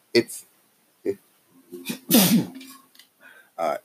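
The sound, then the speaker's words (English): A single loud, explosive sneeze comes amid breathy throat sounds and short vocal noises before and after it. “Just thinking about it gets me sneezing.”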